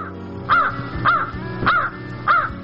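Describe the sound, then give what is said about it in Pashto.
A crow gives four harsh, loud caws at an even, unhurried pace. Each call carries a rough, nasal tone, with no other sounds or voices. “کارغه وار وکت خو بیرته لنډ را وګرځېد او یوه لویه تیږه یې د ناست لپاره غوره کړه.”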